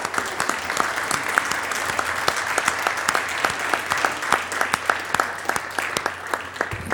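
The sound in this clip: Sustained applause from members on a legislative chamber floor welcoming a senator's son, many dense, crisp claps holding an even level throughout without talk.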